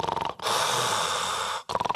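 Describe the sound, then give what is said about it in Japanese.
A voice imitating snoring with stopped breathing, as in sleep apnea: rattling, pulsing snore bursts at the start and end surround a long, steady, breathy rush of air. “私真似が上手なんですが、こういびきをかいています。”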